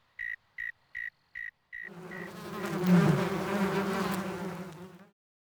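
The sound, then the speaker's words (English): Insects buzz loudly in a dense, rough drone that swells and then fades, after five short, evenly spaced tones; the buzzing is a warning sound meant to keep other insects away. “Some insects make sounds to tell other insects to stay away.”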